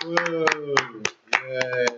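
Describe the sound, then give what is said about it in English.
Hands clap in sharp, scattered strokes under a voiced cheer. A brief gap just past the middle breaks the clapping before it picks up again. “Let's give it up for that.”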